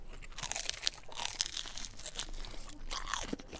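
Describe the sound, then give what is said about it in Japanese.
Bites into crispy, fluffy curry bread give many sharp, quiet crunches and crackles in an irregular rhythm, followed by chewing. “サクサクふわふわ、 うん、 中のカレーももうカレーパンのために生まれてきたようなカレー。 うん、私もじゃあちょっといただきますね。”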